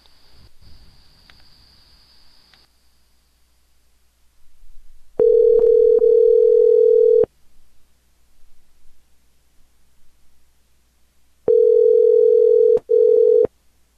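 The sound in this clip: A telephone line tone plays while calling someone back. Two steady, mid-pitched tones of about two seconds each are separated by a pause of roughly four seconds, with faint line hiss and a thin high tone at the start.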